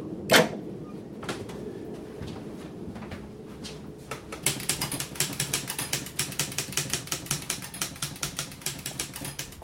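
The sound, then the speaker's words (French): Typing on a typewriter with carbon paper: a few isolated clacks at first, then a fast, steady run of many crisp keystrokes continuing to the end. “Je tape tout sur papier carbone.”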